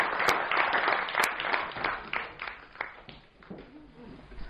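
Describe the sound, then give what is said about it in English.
Audience applause welcoming a speaker to the dais at an event at the NSW Parliament, dense clapping that is loudest at the start and then thins and fades over a few seconds. “Please put your hand together for Mr. Suri and welcome him to the dais to say a few words.”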